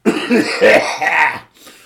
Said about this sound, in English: Excuse me, I've got a cough.